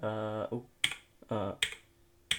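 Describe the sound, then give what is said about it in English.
A few sharp keystrokes on a computer keyboard, three isolated clicks separated by short pauses and interleaved with stretches of a person's voice. “I would type, like, say I was saying hello to someone”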